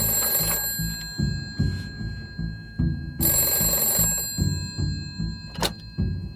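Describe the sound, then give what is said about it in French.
A telephone bell rings insistently in a film scene set in a family home. Bursts of bright metallic ringing recur over a busy, rhythmic low thumping backdrop. “Tout au long du film, la sonnerie de téléphone retentit de façon incessante chez les Bergerons”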